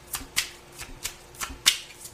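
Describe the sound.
Playing cards being dealt one at a time as cards are called for, a series of crisp, quick flicks and snaps at an uneven pace, with no talk.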